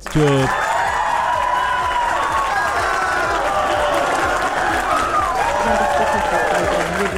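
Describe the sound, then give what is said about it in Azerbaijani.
Sustained audience applause fills the whole stretch, dense and steady without a break, with crowd noise mixed in. “Bu alqışlar sizin şərəfinizə gəldi.”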